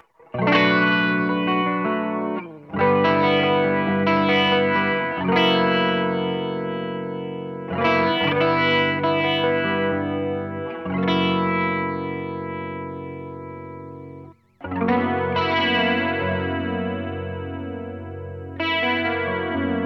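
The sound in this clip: Electric guitar chords played through a Boss CE-3 chorus pedal ring out in several strummed passages, each sustaining and decaying, with a lush shimmering, wavering modulation that is most pronounced in the final chords.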